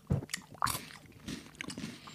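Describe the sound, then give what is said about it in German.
Biting into and chewing a lychee: one crisp, juicy bite followed by a few soft, wet chewing squishes, all fairly quiet with no voices. “Alles klar, dann probiere ich mal Litschi.”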